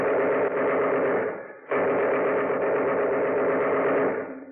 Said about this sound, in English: Well, machine gun fire always was better getaway music than Christmas carols.